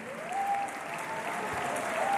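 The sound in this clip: Audience applause at a gala honouring its director: a continuous, full wash of clapping, with a thin sustained tone running through it and a slight swell toward the end.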